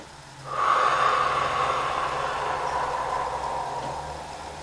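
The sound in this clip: Breathing during guided meditation: after a short quiet moment, one long, steady, airy exhale starts strongly and slowly fades over several seconds, with no voice over it.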